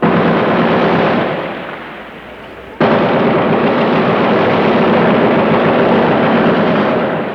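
Gunfire and artillery in street fighting between American troops and rebels in Santo Domingo: a dense, continuous, loud crackling roar that sags for a moment, then cuts back in abruptly and holds steady to the end.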